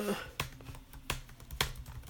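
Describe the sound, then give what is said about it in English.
Three separate, crisp computer keyboard key presses, evenly spaced and moderately loud over a faint background hum, as keys are tapped while working through desktop shortcuts. “Windows W, whiteboard button to activate, press spacebar. No. Escape.”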